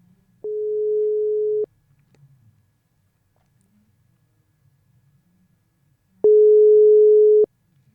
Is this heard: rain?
no